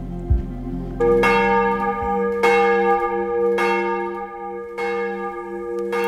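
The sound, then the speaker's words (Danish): Church bells ring for morning devotion at a Copenhagen church: a few heavy, resonant strikes roughly a second apart, each leaving a long shimmering hum that overlaps with the next, with no voices. “Der ringes til morgenandagt fra Vor Frue Kirke i København.”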